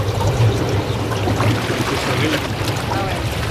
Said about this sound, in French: Mais si c'est très chaud, il y a la piscine. Donc, ici, on peut... Le jacuzzi.